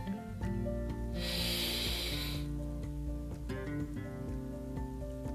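A deep breath in during a guided yoga breathing exercise: one slow, breathy inhalation lasting about a second, heard over soft, steady background music.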